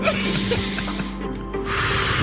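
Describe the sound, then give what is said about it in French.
Forceful breathing through a stuffy, mucus-clogged nose; a rough, continuous nasal hiss with a brief dip midway before another strong breath resumes. “On respire fort par le nez. Il aurait fallu se moucher avant.”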